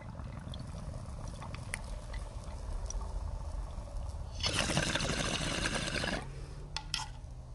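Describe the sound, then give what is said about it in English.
A lighter is lit and a bowl packed with kief is fired, giving a steady rushing hiss of about two seconds mid-clip over a faint, continuous background, followed by a few light clicks. “Let's do this. Here we go. Light the lighter. Fire the bowl.”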